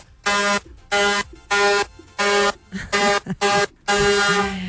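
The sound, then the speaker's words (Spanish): A handheld horn gives seven loud, buzzy blasts in an uneven rhythm. Each blast is rich and harsh, most last under half a second, and the final blast is held longer. “Los pitos que yo tengo aquí. Suena largo y tendido.”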